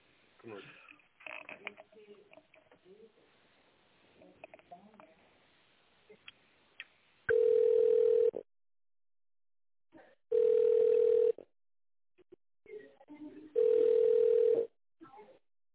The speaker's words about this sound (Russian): С тендерным отделом сейчас переключу.